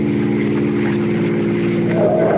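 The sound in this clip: Car engine accelerating on a road: a steady, low, buzzing harmonic drone that rises in pitch near the end.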